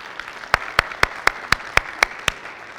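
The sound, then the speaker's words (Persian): Rhythmic hand clapping during a church service: eight sharp, evenly spaced claps in a quick, steady beat, with softer clapping beneath. “بقیه برای اینا دست بزنید عزیزان.”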